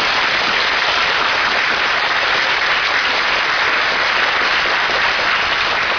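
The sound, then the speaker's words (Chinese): Congregation applause in a church, a dense and loud wash of many hands clapping together. It holds an even, continuous level for the full six seconds. “如果说我们鼓掌说谢谢他给我们带来许多宝贵属灵的粮食，因为他们感谢主，那我们是应该可以鼓掌的。”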